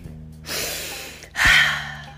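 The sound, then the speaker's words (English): A deep breath taken mid-monologue, heard as two breathy bursts with the second louder and brighter than the first, over a faint steady hum and with no words spoken. “Hold on, wait a minute, let me take a deep breath.”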